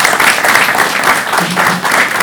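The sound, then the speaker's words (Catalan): Loud applause for a hospitality school and institute, dense and steady clapping that fills the whole stretch without pause and with no voices standing out. “Un aplaudiment també per a ell.”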